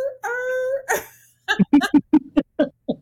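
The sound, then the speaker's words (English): A person imitates a hound yelping after its ear is shut in a door: a sustained, high, wavering whine, a short breathy burst, then a rapid string of choppy vocal yelps. “when the old man closed the Bumpus's hound's ear in the door. I don't know why, but I just thought that was the funniest thing ever when you hear the dog like,”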